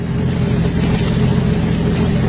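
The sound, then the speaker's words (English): A car engine rumbles as the driver slows to a stop: a loud, dense, low drone that stays at an even level throughout, with no voices. “As I slowed the car to a stop, I counted them.”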